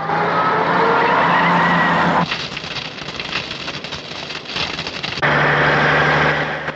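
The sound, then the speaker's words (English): An ambulance and two red fire engines race toward a burning plane crash, a loud, steady rushing roar of engines and noise that changes texture partway through and then returns. “An ambulance and two red fire engines race to the scene.”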